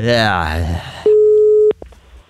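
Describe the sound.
Telephone line tone on a prank call-back: a single steady mid-pitched beep lasting under a second, following a spoken voice and ending with a short click.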